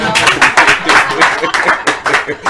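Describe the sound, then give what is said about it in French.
An audience at a home church service applauds for the Lord. Loud, rhythmic bursts of clapping pulse in quick waves, strong and unbroken throughout. “Applaudissez pour le Seigneur.”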